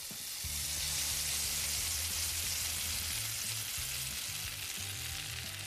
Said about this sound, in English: I did tell you the noise was heightened for a reason, but that is the sound of meat searing on a barbecue.